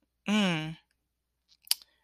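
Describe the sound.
After a short voiced exclamation and a pause, a few sharp, faint mouse clicks sound close together.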